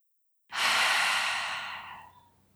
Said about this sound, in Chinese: 你可以做几次的呼吸，可以用鼻子吸，嘴巴吐，叹气般的吐气，